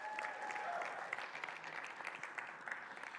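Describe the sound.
A church audience applauding during a service, a steady wash of clapping that stays fairly faint and even for the whole stretch, with a few sharper individual claps standing out.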